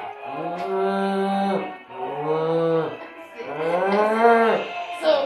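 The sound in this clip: A person imitates a cow mooing with three drawn-out, throaty moos separated by short pauses. Each rises and then sags in pitch.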